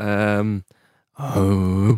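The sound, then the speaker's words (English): A man's voice imitating Matthew McConaughey's low rhythmic chant from The Wolf of Wall Street; two sustained, resonant low hums separated by a short silence. “What's that? The breathing from Wolf of Wall Street. Do a McConaughey.”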